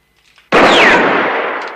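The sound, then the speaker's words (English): A single loud gunshot fired at a gun lying on the ground during a film gunfight: a few faint soft sounds, then one sharp, abrupt crack with a long ringing decay. “Valance shoots at the gun on the ground, but Rance continues.”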